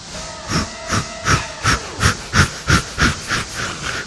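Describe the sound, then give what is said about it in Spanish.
A steam train starting off, giving many rhythmic hissing chuffs of steam that come gradually quicker as it gets under way. The chuffs are moderately loud and sound alone, without voices. “Como podéis notar, esto es un tren. Es un tren, es un temazo. Está arrancando ahí un poquito.”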